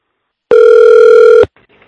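A telephone tone sounds as a single steady electronic ring lasting about a second at constant pitch. It cuts off abruptly and leaves faint low noise.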